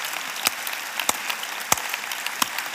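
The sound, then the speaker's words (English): An audience applauds volunteers with steady, dense clapping that holds an even level throughout, with a few sharper individual claps standing out. “Now let's put our hands together for them.”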